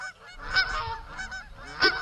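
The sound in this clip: Geese honking in a barn pen: several loud, nasal honks overlap in an uneven run, with the strongest calls near the start and again toward the end.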